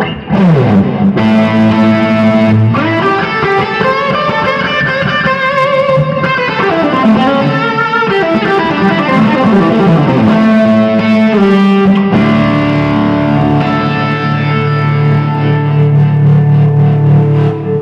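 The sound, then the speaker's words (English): Electric guitar played through Tweed Twin amplifiers with a little delay, loud and slightly gritty, picking a flowing melodic line of ringing notes that smear into one another before settling into long sustained tones near the end. “these are just Tweed twins. So this is the sound with the Tweed twins and a little bit of delay.”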